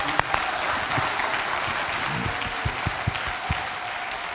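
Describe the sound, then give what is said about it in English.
Audience applause welcoming a Veterans Day speaker, dense steady clapping at an even level throughout, with a few sharper individual claps standing out near the end. “would you put your hands together and give him a real hero's welcome”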